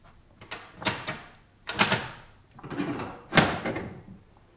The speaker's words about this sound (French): Là, c'est sans doute une précaution inutile, mais Sigognac m'a bien recommandé de tirer le verrou.